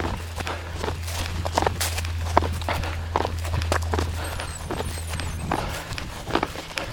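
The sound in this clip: Footsteps of a runner slowing to a walk during a walk break, a steady rhythm of many steps over a constant low hum.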